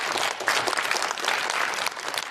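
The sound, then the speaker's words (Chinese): Audience applause at a live comedy crosstalk performance on stage: dense, continuous clapping that holds steady and loud throughout, with no talk over it. “谢谢您各位的掌声”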